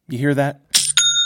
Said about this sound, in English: That's the sound of another sale with Shopify,